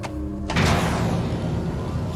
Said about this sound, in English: She pulls a torch from the wall and switches it on as the lift doors close behind her.